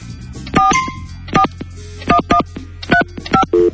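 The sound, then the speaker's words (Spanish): Telephone keypad tones as a number is dialed: several short beeps of differing pitch at uneven intervals over a low, steady hum. “¿Por qué no me dejas marcar a mí? A ver. Voy de vuelta, vamos de vuelta.”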